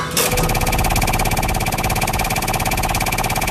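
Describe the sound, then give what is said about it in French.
A prize wheel spins in a game, giving rapid, loud ratchet-like clicking that runs without a break and at a steady, fast rate. No voices. “Alors, on lance la roue tout de suite.”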